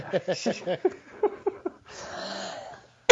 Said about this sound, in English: excuse me, coughing